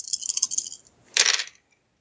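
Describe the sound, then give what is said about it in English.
Dice rolled during a tabletop game: a light, brittle rattle at first, then a pause and a short, louder burst of clattering as they land and settle before going quiet. “Alright, let's do this thing. Come on, 4 successes on my 4 dice.”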